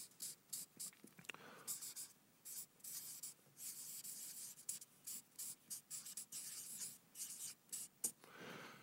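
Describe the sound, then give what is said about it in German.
Handwriting by pen: many quick, soft scratching strokes in an uneven rhythm, faint and alone, with short pauses between bursts of writing. “Ich schreibe das auch nochmal hier hin.”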